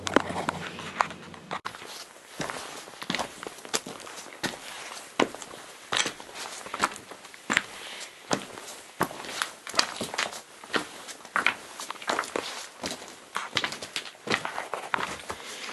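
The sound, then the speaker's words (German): Footsteps of people hiking down steep steps, many irregular, sharp treads following one another at an uneven pace, with no talk. “Wir gehen jetzt dann wieder weiter, wieder zurück die steile Stege der Ruhe ab und noch ein bisschen wandern”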